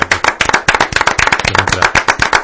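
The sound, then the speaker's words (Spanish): Clapping in applause for a comics artist: a rapid, loud, crisp stream of sharp hand claps from a few people, keeping a steady pace through the whole stretch with no voices. “Un aplauso para Santi Giro, por favor.”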